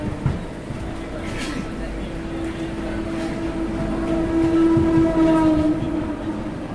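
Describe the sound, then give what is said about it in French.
A train leaves a station platform with a steady low rumble and rattle of rail noise that swells slightly toward the end. “Quand vous arrivez à la gare, le train quitte le quai.”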